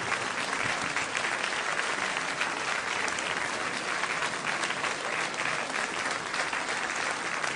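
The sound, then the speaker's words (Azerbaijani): An audience applauds in a steady, dense wash of many hands clapping, holding an even level from start to finish. “Bir daha alqışlayın.”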